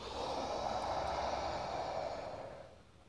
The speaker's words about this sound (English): engage your ujjayi breath. And we're going to take three breaths here. So breathe everything out completely. And then inhale.